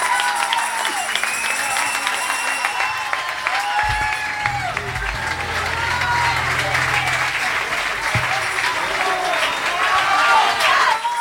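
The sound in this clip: Audience applause at a live concert held at a hotel: continuous crowd clapping with voices rising over it, staying dense and strong throughout and swelling slightly louder toward the end.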